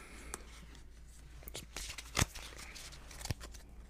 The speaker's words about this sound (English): All right, why don't you pick a card right now, and then you can put the deck back.